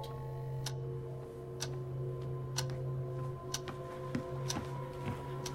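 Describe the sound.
Clock ticking softly at a steady pace of roughly one tick per second over a low, constant hum.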